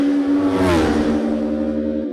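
Racing motorcycles in a road race pass at speed: a loud, sustained engine whine whose pitch sweeps downward as the machines go by, lasting about two seconds.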